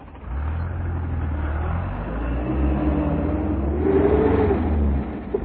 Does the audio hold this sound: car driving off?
yes